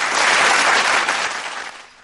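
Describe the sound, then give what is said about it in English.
Spontaneous applause from a studio audience, a dense, loud burst of clapping that holds steady and then fades away toward the end. “It's the studio audience. I can't help it. I didn't tell them I wanted them to clap. It was spontaneous applause.”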